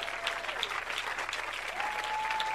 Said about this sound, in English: Clap your hands. Clap your hands. Clap your hands.